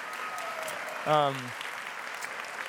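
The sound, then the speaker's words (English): Congregation applause during a church service, a soft, even wash of clapping across the whole clip, with a brief voiced whoop rising out of it near the middle. “let's just give a round of applause for Raul and Lupita”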